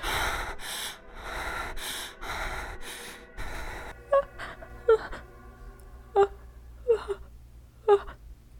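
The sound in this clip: A woman gasps and struggles to catch her breath. First comes a run of heavy, noisy breaths, then several short, sharp gasps with a voiced catch.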